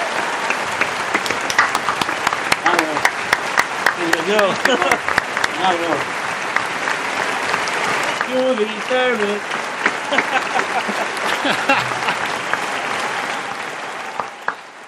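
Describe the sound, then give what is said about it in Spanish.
Sustained audience applause with steady dense clapping that lasts the whole stretch, with scattered voices and cheers mixed in. “Y espero aplausos, por favor, como hoy.”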